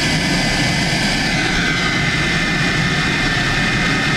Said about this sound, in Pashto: دا د کامیر په نوم یوه خصوصي طیاره ده چې تر دریو کلونو وروسته نن شنبه اورزګان ولایت ته راغلی